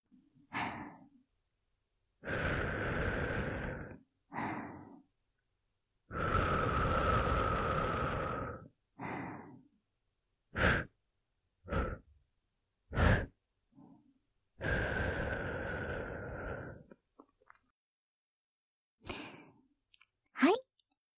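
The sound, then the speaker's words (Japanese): Breath blown into the ear during ASMR ear cleaning by a shrine-maiden character: three long, airy exhalations and a handful of short puffs, each set apart by silence, soft and close. “それでは、こっち側にも癒しのブレスをしてあげますね。君の悪しき耳かすを、巫女さんの聖なる吐息で吹き飛ばしてあげる。”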